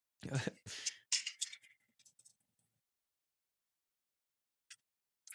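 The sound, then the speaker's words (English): A match is taken from its pack and struck. Several sharp scratchy bursts and scuffling rustles come first, then fainter crackles, a pause, and two brief isolated clicks. “It's a match. A match being lit, if you want to be specific. A match opened from the pack, got out, scuffling with the matches,”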